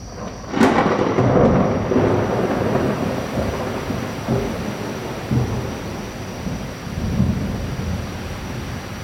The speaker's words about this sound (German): Gerade noch rechtzeitig kommen wir wieder auf unserem Flutuanchi, unserem Hausboot, an, da fängt es an, wie aus Eimern zu schütten.